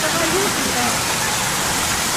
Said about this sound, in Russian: вот мы плывем, и ничто не предвещает попадание под этот водопад